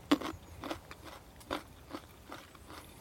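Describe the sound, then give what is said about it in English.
Crisp crunching as a fresh nut is bitten and chewed after its papery skin is peeled off. Several short, sharp cracks land at uneven intervals, fairly quiet, with no talking. “That papery stuff is all quite edible, but to get to the meat of the nut, just to take some of that off.”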